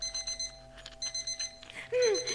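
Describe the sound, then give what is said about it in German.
An alarm clock ringing in two bursts of quick, high electronic beeps with a short pause between them, followed by a voice speaking at the end. “der Wecker hat geläutet.”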